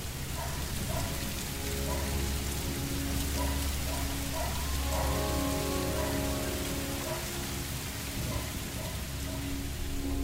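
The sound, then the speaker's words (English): A rainstorm: steady, dense rain patters on surfaces, a constant, even hiss that holds throughout. “who doesn't love listening to a good rainstorm? It's fantastic to hear rain”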